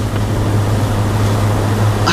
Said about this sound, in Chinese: 雨太大了，我就先进屋了啊！